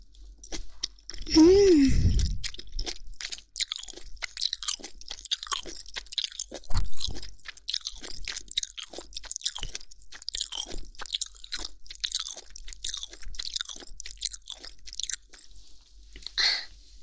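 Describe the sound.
Loud crisp crunching of a steamed ear eaten plain without dipping sauce, starting after a short vocal exclamation, then many irregular bites and chews continuing throughout.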